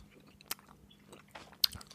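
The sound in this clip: Chewing on toffee candy that has been sitting in the cold: faint, sticky mouth sounds with a few sharper crunchy clicks, heard alone.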